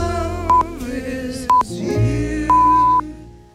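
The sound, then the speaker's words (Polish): Polish radio's hourly time signal marks 11 p.m. with three pure beeps about a second apart, two short and a final longer one, heard over faint fading music. “Wybiła 23, a to oznacza, że czas na wiadomości.”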